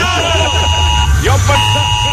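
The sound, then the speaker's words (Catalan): A loud emergency alarm buzzer blares continuously with a harsh, steady, harmonic-rich tone, while voices talk over it. “morirem d'un atac de cor per culpa d'aquesta alarma del dimoni”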